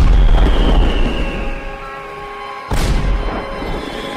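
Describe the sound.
Fireworks exploding in the sky: one sharp, loud bang breaks through a steady low rumble, and the noise stays fuller and louder after the burst.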